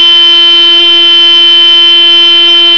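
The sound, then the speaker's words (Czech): A motorcycle horn on a chopper blares in one loud, continuous, steady buzzing tone, held unbroken for nearly three seconds. “Každý správný motorkář se budí klaxonem své roztomilé motorky.”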